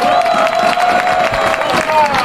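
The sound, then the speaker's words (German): A crowd in Weitra cheers and applauds a cycling race winner at the Race Around Niederösterreich finish, producing continuous loud clapping with raised voices and whoops throughout. “Weitra, einen Applaus für unseren Sensationsmann.”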